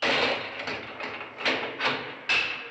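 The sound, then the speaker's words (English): Clanging of a heavy lock at the end of the film The Hill, a run of several sharp metallic clanks, each with a ringing decay, spaced unevenly one after another. “And then my last note is the lock sound as the end comes up. That's clanging of the lock.”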